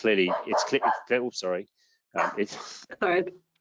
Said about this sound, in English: just ignore the dog.